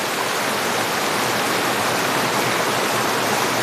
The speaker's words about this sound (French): c'est exotique d'entendre ce cours d'eau, hein, ce flux.